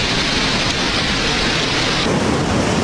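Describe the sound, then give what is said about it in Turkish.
Heavy downpour pounding a flooded city street, Barbaros Avenue in Istanbul. It is a loud, dense, continuous hiss of rain that stays steady throughout, with no voices. “Barbaros Caddesi her sağanak yağışta bu şekilde.”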